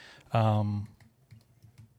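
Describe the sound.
Typing on a computer keyboard while pulling up a website: a short burst of voice comes first, then a run of light, quick key clicks patters on alone at a low level.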